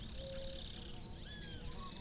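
A male white-headed marsh tyrant (monjita) sings at the Charca de Guarinó wetland. Thin, faint whistled notes rise briefly above a steady, dense insect chorus.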